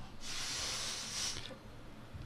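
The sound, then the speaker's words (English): A steady breathy hiss as a person blows into a breathalyzer after spraying something into their mouth to try to beat it. One sustained blow of a little over a second, then it drops back to quieter background noise. “So he's trying to beat the breathalyzer and he... Give us a blow.”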